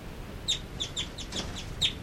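Two caged birds call inside a holding cell, giving several short, bright, high chirps at an uneven pace over a low, steady background hum.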